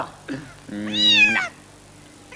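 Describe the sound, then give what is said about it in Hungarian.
A cat meows once in a long, drawn-out call with a slight wavering rise and fall in pitch. The call is clear and fairly loud against quiet surroundings. “Hagyd már ezt a macskát.”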